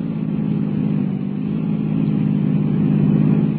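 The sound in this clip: A car engine roars steadily during a chase, a loud, continuous low rumble that swells slightly toward the end with no gaps.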